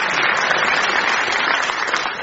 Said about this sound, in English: Let's give a round of applause at the end of that with a double clapping of Sarah and Jack.